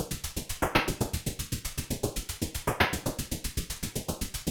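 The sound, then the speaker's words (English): A noisy sequenced synthesizer pattern of fast, evenly spaced filtered-noise pulses repeats steadily, with brighter sweeping bursts recurring every couple of seconds. It plays alone, without voices. “there's more noisy sequence synths kicking in later on that sound like this.”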